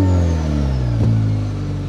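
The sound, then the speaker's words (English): Turbo spool of a 2023 Chevy Colorado truck engine, heard from outside: a loud, steady engine drone with a faint high whistle that slowly falls in pitch throughout. “Can you hear that turbo spool? I certainly can. I think it sounds really cool from the outside.”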